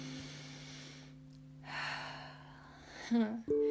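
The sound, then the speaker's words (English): A deep breath drawn in, heard as a soft, breathy rush lasting about half a second over quiet, sustained low tones. A few short voiced sounds follow near the end. “I feel like we should close our eyes and put big old smiles on our face and take a deep breath in.”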